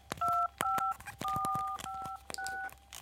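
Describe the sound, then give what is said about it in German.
Telephone number being dialed: five short, fairly quiet dual-tone keypad beeps, each with a sharp button click, separated by brief gaps with more scattered clicks. “Dann rufe ich eben Claudia an.”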